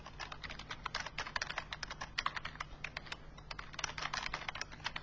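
Typing on a computer keyboard: many quick, light key clicks in an uneven rhythm, steady and faint throughout, with no voices.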